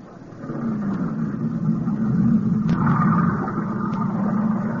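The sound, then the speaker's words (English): A motorboat engine runs with a steady, low, droning rumble that swells slightly at the start and then holds an even level, with a few faint clicks above it. “Get into the boat. Okay. You're steering. Go ahead, start it up.”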